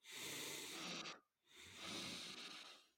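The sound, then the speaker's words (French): Double-inhalation breathing exercise: two long, soft, hissing breaths of air separated by a brief silent pause, with no voice. “Double inspiration. Expire. Double inspiration.”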